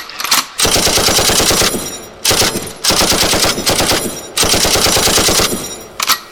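Gunfire in rapid automatic bursts: three long, loud, continuous volleys separated by short gaps, with brief single shots at the very start and end, no voices.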